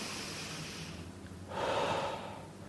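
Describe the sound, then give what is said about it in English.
A deep breath drawn in through the nose and mouth makes a long, airy inhale of about a second. It swells and then eases off over soft, steady background hiss. “That will help relax you. And it actually starts sending different chemicals into your system that will overcome the negative chemicals. So take a deep breath.”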